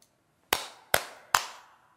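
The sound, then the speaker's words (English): Three sharp handclaps are layered onto background vocal tracks in a song mix. They sound alone and evenly spaced, and each crisp snap fades into a short tail. “I'm going to do this on the background vocal tracks. Some claps.”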